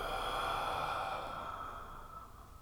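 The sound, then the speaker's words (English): A long, deep breath slowly exhaled during a guided relaxation exercise, soft and airy, fading gradually as it trails off. “And a second sweet long deep breath in and relax even deeper as you breathe all the way out.”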